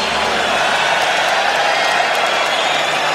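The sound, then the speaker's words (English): Crowd applause for the clients: a dense, steady wash of clapping and crowd noise with a few cheers and whoops mixed in, at an even loudness throughout. “applause for all the clients.”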